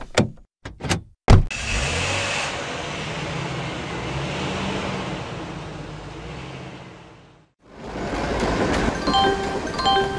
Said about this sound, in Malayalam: തനന്ന് ഇവിടെ ഇറങ്ങി നിൽക്ക്, ഞാൻ വണ്ടി അപ്പുറത്ത് പാർക്ക് ചെയ്തിട്ട് വരാം.